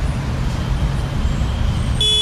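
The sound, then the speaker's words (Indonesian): Traffic rumble from a jammed road, a dense low hum of idling vehicles, with a single car horn tooting briefly at the very end. “Ya Allah, macet banget nih.”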